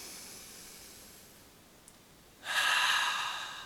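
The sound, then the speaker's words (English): A deep breath drawn in through the nose as a single breathy hiss. It begins abruptly after a stretch of near silence, swells quickly and holds, fading slightly until the end, faint overall. “Take a deep breath in through the nose.”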